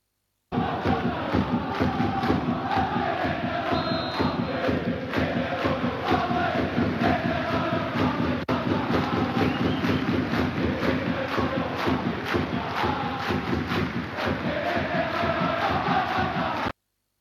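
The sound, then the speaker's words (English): A football crowd in a stadium claps rhythmically and chants a song during a one-minute clapping tribute for the Queen. Many voices and steady, regular claps run together continuously for about sixteen seconds. “the crowd started singing, "If you hate the royal family, clap your hands," during the 1 minute clapping session.”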